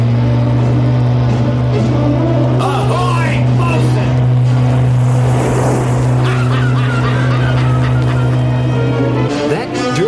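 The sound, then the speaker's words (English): Engine of a sports fishing motorboat speeding past in a harbor: a loud, steady, low droning roar with a rougher rushing surge midway, then the drone continues before cutting off near the end. “That his boat? Yellowtail. Fastest sports fisherman in the harbor.”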